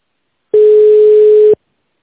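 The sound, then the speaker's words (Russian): A phone-line tone while a company call is being transferred: one steady, mid-pitched electronic tone lasting about a second, clean and alone, starting and stopping abruptly. “Выполняется перевод вызова. Ждите на линии.”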